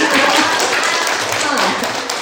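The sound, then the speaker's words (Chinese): A church audience applauds in praise of the Lord with a dense, steady wash of clapping that holds at an even, fairly loud level throughout. “我们给主一个掌声”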